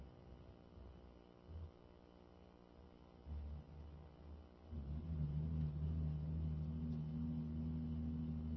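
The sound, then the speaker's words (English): Heavy vehicle driving by outside, a low rumble likened to a tank: a faint steady hum that swells into a deeper, louder throbbing rumble through the second half. “what in God's name is driving by outside? Sounds like an M60 tank, M1A1 Abrams tank or something.”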